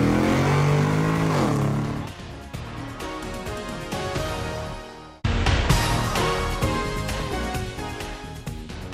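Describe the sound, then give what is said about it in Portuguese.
A car engine revs hard and accelerates as the car is put into first gear. The loud, gritty roar climbs steadily, cuts out briefly about midway, then surges back and keeps pulling strongly to the end. “engata a primeira e acelera.”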